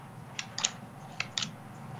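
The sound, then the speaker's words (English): Crisp clicks and soft snaps of an ordinary deck of playing cards being handled, a few short faint taps spread over two seconds above a low steady hum. “Okay, I'm doing the cards. Those of you interested, I'm using an ordinary deck of playing cards.”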